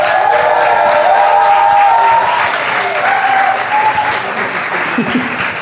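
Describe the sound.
An audience at a live public radio show in Rennes applauds and cheers a band, loud sustained clapping that swells and holds, with cheers and voices mixed in.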